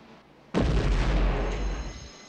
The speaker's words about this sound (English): Glass doors at the end of the walkway shatter from the explosion.